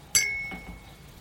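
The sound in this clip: Glasses clink together in a toast, giving one bright, sharp chime that rings on briefly with a high tone, then fades to near silence.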